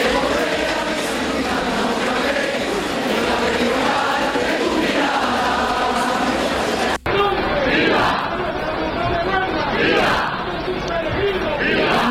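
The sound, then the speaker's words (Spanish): A large crowd of pilgrims roars and shouts as brotherhoods are presented before the shrine during the El Rocío pilgrimage. The loud, dense cheering carries on almost without pause, broken only by a momentary gap partway through. “Rocío, donde continúa hasta ahora la presentación de hermandades ante la matriz del monte con sonidos como estos.”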